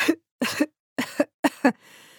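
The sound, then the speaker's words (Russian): Someone who is unwell coughs in a run of short, harsh bursts, mostly paired coughs in quick succession, alone with no talk, before trailing into faint noise. “Прерываясь на кашель.”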